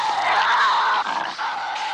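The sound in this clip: A Tasmanian devil, the marsupial, gives a harsh, raspy growl: a loud, strained screech that holds for about two seconds with a couple of brief dips in strength, heard alone.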